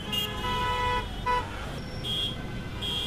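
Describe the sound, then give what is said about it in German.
Daytime street traffic in New Delhi: car horns toot and honk repeatedly in short and longer blasts over a steady rumble of passing vehicles, with no talk. “Weil tagsüber klingen die Straßen in Delhi ungefähr so.”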